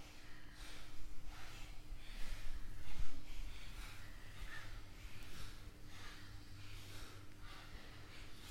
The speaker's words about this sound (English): Panting breath, start. Inhale strong, exhale strong.